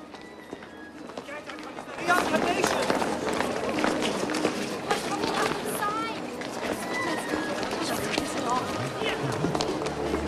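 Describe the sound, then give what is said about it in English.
A man runs past on a cobbled street, his quick, rapid footsteps starting abruptly after a quieter opening and continuing at an even pace to the end. “A man in a cap runs past him.”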